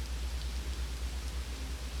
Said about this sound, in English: You can hear the rain pouring,